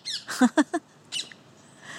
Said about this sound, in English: recorded here in my garden in South London with the parakeets